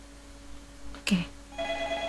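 A telephone rings for an incoming call on a radio call-in line. A single sharp click comes first, then a faint, steady electronic ring tone begins over a low, constant hum.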